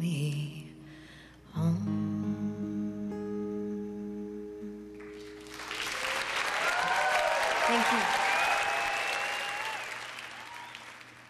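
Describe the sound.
Audience applause on a live album swells after the sustained music fades out, then builds into loud, dense clapping with a few whistles and cheers before tapering off slightly.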